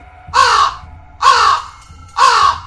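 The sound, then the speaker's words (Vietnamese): Three loud, harsh bird cries, crow-like caws, ring out evenly spaced and alone. Each is a short, piercing, rasping burst with silence between. “Tiếng kêu chói tai như của một con chim nào đó vang lên.”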